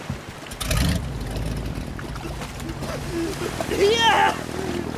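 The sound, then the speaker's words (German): A motorboat engine starts up and roars after about a second, then keeps running under shouting voices. “wirf den Motor an, sofort!”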